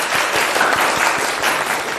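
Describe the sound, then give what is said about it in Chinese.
Brief burst of classroom applause for a student after a recitation, many hands clapping in a dense, steady patter for about two seconds with no voices. “不错啊，大家给他鼓掌。”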